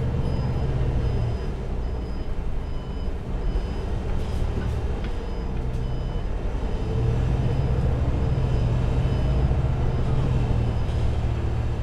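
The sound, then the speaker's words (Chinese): Low, steady engine rumble of a city bus pulling away from a stop, with a repeated high beep throughout; the engine swells partway through. “车辆起步，请扶稳坐好。”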